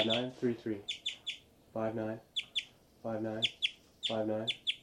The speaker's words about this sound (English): birds are flying around giving a lot of flight calls, and these are the birds